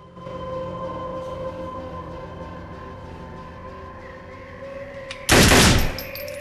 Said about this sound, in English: Duke shines his light over all the dead bodies. There are so many of them. Shaking his head, he begins to shoot them.